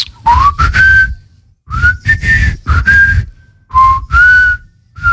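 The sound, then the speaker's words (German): A man whistles a melody in loud, clear phrases with smoothly gliding pitch, broken by short pauses and backed by low breathy noise. “kannst du eigentlich gut pfeifen? Natürlich, soll ich jetzt mal.”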